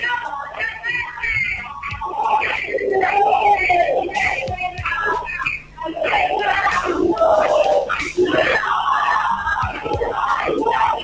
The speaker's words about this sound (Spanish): Los gritos desde adentro de la sala, los cantos de festejo porque Ailén y Marina